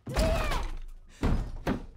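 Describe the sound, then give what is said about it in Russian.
A door is being broken open with heavy blows: three loud thudding impacts, the first ringing on longest and the last two coming close together. “Господи, даже дверь сейчас выломал, как он.”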